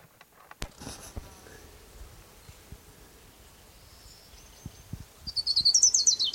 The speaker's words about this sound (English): is Orange Crown Warbler number one.